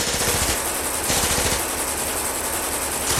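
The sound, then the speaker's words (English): Tommy gun fire in a shootout: a dense, continuous rattle of rapid automatic shots that runs unbroken through the whole clip, loud and without voices. “Those are Tommy guns! Al and Shirley look at one another. Frank enters from the kitchen. It's a shootout!”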